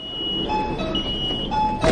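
A door slams shut near the end, aboard a Lahore Orange Line metro train, with a brief, sharp thud following steady electronic tones over a constant humming background.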